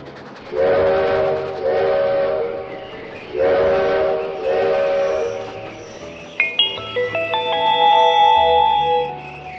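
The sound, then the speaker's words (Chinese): A train pulls into its terminal station with several loud steam-style whistle blasts over rolling rail noise, followed by a run of higher, sustained overlapping tones. “亲爱的小朋友们，我们的列车已经到达终点站，感谢大家乘坐本次列车”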